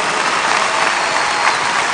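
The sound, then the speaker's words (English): Audience applause after a story on stage, a thick, continuous wash of many hands clapping at a steady, loud level with no pauses. “You guys are clapping, but you should have seen the interview.”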